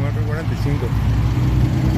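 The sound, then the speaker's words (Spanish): A pickup truck engine runs with a steady low rumbling hum that holds even throughout, under people talking. “Claro, en marcha la camioneta.”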